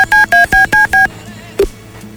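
Telephone keypad tones from redialing a call after it dropped: five short, evenly spaced dual-pitch beeps in a steady rhythm, then a brief blip and quiet line noise.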